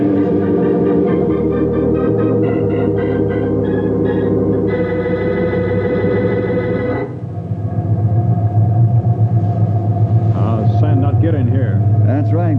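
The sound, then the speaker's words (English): Rumbling engine of a sandmobile, a government-built truck with heavy tires, driving through a sandstorm. A steady low drone with sustained tonal layers runs throughout, shifting abruptly about seven seconds in and then continuing loud. “Lucky we had one of these in our area. Government built only a few, call them sandmobiles. Heavy tires, small windows, seal the course. Each of these trucks is equipped with compass and radio and radar.”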